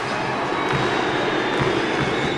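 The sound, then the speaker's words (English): Students in the Orange Crush section cheer courtside at a basketball game, a loud, steady crowd roar with no breaks. “Lining the court are students, nicknamed the Orange Crush, who erupt into cheers.”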